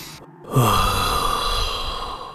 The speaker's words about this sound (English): Well, first I usually take a deep breath.